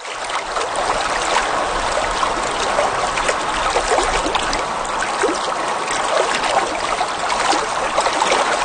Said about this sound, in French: Bon, je vous rassure, ça, c'est pas l'eau de la serre. Il n'y a pas personne qui marche avec ses bottes à douille dans le système d'eau de la serre. On est ailleurs. Ben oui. On est au lac Saint-Jean